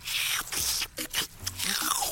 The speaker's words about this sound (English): What you just licked off of your tentacle is subspace cleaning foam.